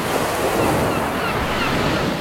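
Waves washing onto a beach, a steady, loud rush of surf noise with no distinct single crashes and no voices over the short stretch.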